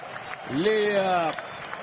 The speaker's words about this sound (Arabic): يا سلام على هذا الجمهور وعلى هذا الحضور، الابتكار طبعا الجمهور النرويجي لطرق التشجيع،